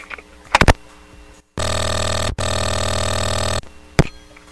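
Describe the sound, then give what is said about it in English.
A telephone rings with a loud, buzzy electronic tone that cuts out briefly partway through and then resumes. A few short, sharp clicks sound before and after the ring. “Every time the phone rings, the cat freaks out and runs out of the room.”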